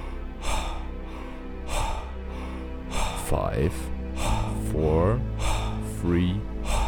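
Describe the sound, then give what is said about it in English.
Rapid, forceful power breathing at double speed: a quick, regular run of many sharp breath bursts, with brief voiced sounds from a person breaking in between some of them. “Power breathing. Double speed.”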